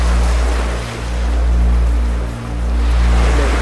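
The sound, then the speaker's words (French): Sea waves make a loud, continuous rushing wash with a deep low rumble underneath, easing briefly twice as the swells roll through. “Tu vois la mer qui nous bloque.”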